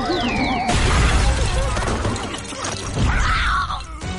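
A vehicle crashing down after being struck in an animated action scene: a dense, loud stretch of crashing and clattering noise, with a falling whistle-like tone at the start and a swelling rumble near the end.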